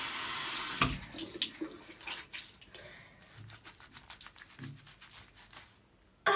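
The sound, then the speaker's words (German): Tap water running into a sink while someone washes their face, a steady trickle broken by irregular splashes and rubbing, with a sudden louder burst of water at the very end. “Jetzt mein Gesicht waschen. Wow, sehr fresh.”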